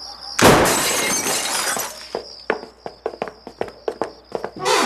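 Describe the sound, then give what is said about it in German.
Glass shatters as a cellar window is broken open: a sudden loud crash with a bright rush of breaking glass, followed by many short, sharp clinks and taps at an irregular rhythm. “Da, das Kellerfenster ist kaputt. Ja, sehe ich, aber da kommen wir nicht rein. Los, aufbrechen!”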